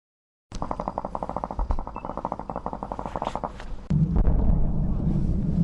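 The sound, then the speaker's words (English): An airstrike on the war's front line near the town of Kobani: a rapid, even train of sharp pulses gives way suddenly to a heavy, deep, sustained rumbling blast. “Just a mile or two down the road, an airstrike.”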